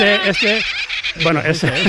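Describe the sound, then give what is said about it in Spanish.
A black-headed gull calling: a few harsh, nasal cries with bending pitch, loud and close together, with a short gap in the middle. “Este es la gaviota reidora, lógicamente.”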